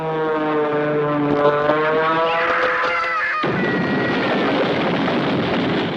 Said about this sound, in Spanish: Allá viene el avión